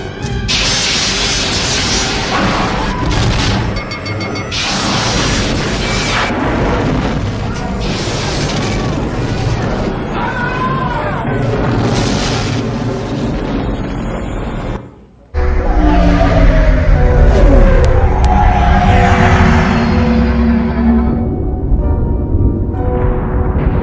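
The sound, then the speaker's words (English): Sci-fi phasers fire on a target, with booming, crashing blasts in a dense, loud, unbroken barrage. The sound drops out briefly past the midpoint, then returns even harder. “Lock phasers on target. Locking phasers on target. They're locking phasers.”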